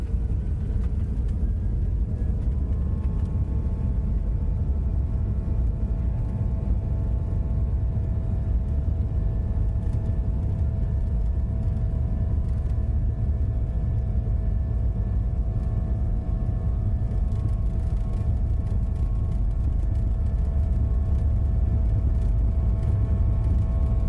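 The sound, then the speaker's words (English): Airliner engines and tires rumbling on the runway during takeoff: a loud, steady, dense low roar with faint whining tones above it, continuous throughout with no voices. “let's fast forward now to takeoff, when you hear the engines spool up, and when we lift off the ground, you're going to hear the rumble of the tires of the runway suddenly disappear.”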